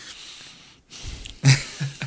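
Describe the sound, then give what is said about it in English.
Heavy, angry breathing imitated by a person: several forceful, breathy exhalations and snort-like bursts, the loudest near the middle. No speech is heard. “when you get mad and you breathe,”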